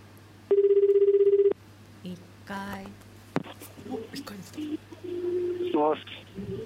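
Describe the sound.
A telephone ringtone sounds once as a call is placed, a single buzzing burst lasting about a second, followed by quiet voices talking.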